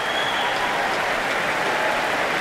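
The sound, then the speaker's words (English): Audience applause after a concert of songs as the singer returns to the stage for another bow: dense, steady clapping from a large crowd that holds an even, full level throughout, with no voices. “And the applause soars for Louise Alder, coming back on stage for another bow, waving to the crowds and crowds here tonight.”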